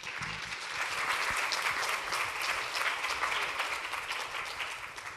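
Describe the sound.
Audience applause welcoming a speaker to a talk on women in business and finance: dense, steady clapping that carries through the whole clip without a break.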